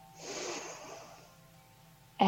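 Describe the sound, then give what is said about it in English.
Slow, gentle inhale through the nose: a soft, airy breath that swells over about a second and gradually fades, followed by a voice starting right at the end. “So let's take a gentle inhale slowly through the nose.”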